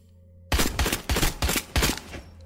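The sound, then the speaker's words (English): Gunfire from a video game trailer breaks out after a half-second of quiet: five loud, sharp bursts of shots come in quick, uneven succession with a low hum underneath. “Why are you shooting people, Chris?”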